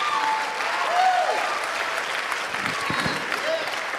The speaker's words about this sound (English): Can we do that this morning? Can we give Jesus a shout of praise?